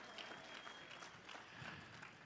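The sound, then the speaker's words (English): Church audience applauding during a service, a faint, even patter of many hands clapping that holds steady from start to finish. “Come on, give yourself a hand clap and say, you are a generous church.”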